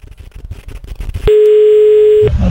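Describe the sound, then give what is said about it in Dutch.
Telephone ringing tone while placing a call: after a stretch of uneven background noise, one loud, steady, pure tone holds for about a second, then cuts off. “dat is zo iemand dat ik gewoon wel een keer kan proberen bellen en zien wat er gebeurt. Oh, ik hoop dat hij oppakt.”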